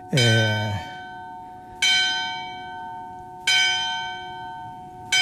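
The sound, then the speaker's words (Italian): A church bell rings from a village bell tower that was once a defensive tower. It strikes four clear, loud, resonant tolls, each one ringing on and slowly decaying before the next strike. “sentite le campane del campanile della chiesa del paese, che tra l'altro è un campanile che fu una torre difensiva, poi trasformato in campanile.”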